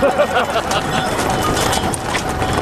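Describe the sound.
A horse's hooves clip-clopping in a quick, continuous rhythm of dense, even strikes.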